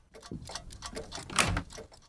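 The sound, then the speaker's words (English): Clocks of all shapes and sizes tick along a hallway, a quiet patter of overlapping clicks and ticks with differing tones and one louder knock midway. “They step over the threshold past the elderly white-haired woman. Clocks of all shapes and sizes line the hallway.”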